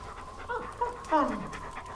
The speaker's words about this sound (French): Tu me reconnais, hein? La brave chienne.